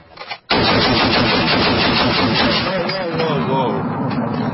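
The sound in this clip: Sustained, loud machine-gun fire from a test firing by American soldiers at a small outpost in a mountainous region on the Pakistani border, a dense unbroken rattle that starts abruptly after a brief quiet moment and runs to the end.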